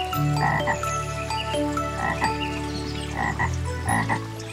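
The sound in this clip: Frog croaking: a few throaty, buzzy croaks repeat at uneven intervals, each a short rasping burst standing out clearly against a steady background.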